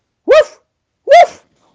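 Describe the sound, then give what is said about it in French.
Two sharp, loud dog barks, each short and tonal, separated by a pause of under a second, with silence around them. “Aboie encore, Georges. Et Georges fait”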